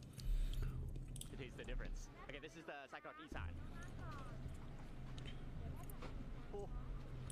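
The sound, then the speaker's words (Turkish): A man chewing Thai sausage in food-ASMR style, with soft wet bites and squishy chewing sounds that go on while voices talk over them. “Aslında güzel gözüküyor canım çekti şu an. Yemek ASMR yapıyor resmen adam ya.”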